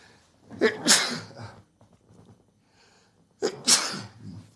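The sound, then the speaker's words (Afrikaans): Two loud sneezes, each a sharp, bursting blast. About two seconds of near quiet with faint breathing separates them. “ek skies toch, lekker nies ek nou”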